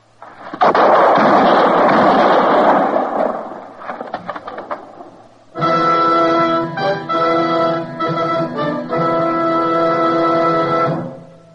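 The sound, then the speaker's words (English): Gunfire in a tense standoff as a marshal tries to arrest an outlaw: a loud, dense burst of noise lasting about two seconds, then a few fainter crackles, followed by dramatic music with sustained tones. “The shots”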